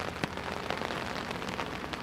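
Steady rain falls on a surface during a walk in a British national park, a continuous dense hiss with scattered sharper drop taps throughout, fairly even in loudness.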